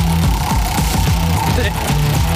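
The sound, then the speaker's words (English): Clicking of a prize wheel being spun, a steady run of fairly evenly spaced ticks over a low background hum. “All right. Now, let me give this wheel a spin.”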